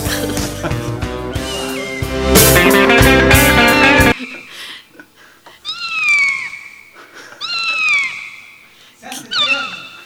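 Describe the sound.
A cat meows after a few seconds of loud music, with a few bursts of high, drawn-out meows that fall in pitch, separated by short pauses.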